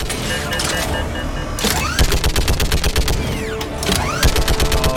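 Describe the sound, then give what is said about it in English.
Rapid-fire gun in a video game with a spin-up and a 50-round magazine: whirring tones sweep up before several loud, fast bursts of tightly packed shots that rattle in quick succession. “So it's got a little bit of a spin-up time. And it's got 50 bullets before it has to reload.”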